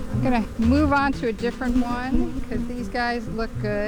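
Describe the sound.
Bees buzzing around a beekeeper's backyard hives: a steady insect drone running beneath a person talking throughout.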